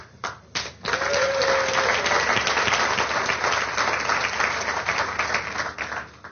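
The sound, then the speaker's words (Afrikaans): Audience applause, with many people clapping their hands in a dense, steady roar of claps. It follows a few scattered opening claps and carries on loudly for several seconds. “Iemand al ooit so iets moois vir julle gesê. Iemand al ooit vir julle hande geklap.”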